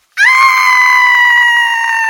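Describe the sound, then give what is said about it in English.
A dramatic, theatrical human scream bursts in abruptly. It holds loud at a steady, piercing high pitch for about two seconds without a break. “I think I'm going to scream! Dramatically!”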